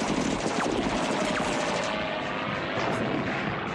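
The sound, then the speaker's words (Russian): Warplane diving at a trench in a war film, its cannon fire ploughing the ground beside it, heard as a dense, continuous loud roar with gunfire blended into the engine noise. “Самолетная пушка вспарывает землю рядом с окопом.”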